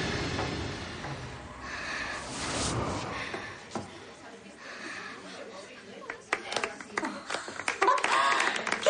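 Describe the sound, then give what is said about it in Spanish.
Girls clapping in amazement in a dance rehearsal room: scattered hand claps that grow denser and louder toward the end, over other background sound. “Las chicas se acercan aplaudiendo asombradas.”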